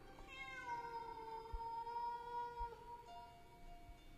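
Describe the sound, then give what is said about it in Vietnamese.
Cats yowling in long, drawn-out, wavering wails, fairly faint, with one cry fading as another lower, sustained tone takes over. “Bà nó ơi, bà nó dậy xem là nghe như có tiếng mèo kêu ở đâu ghê quá.”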